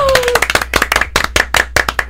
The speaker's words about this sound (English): Wow, we got a golf clap.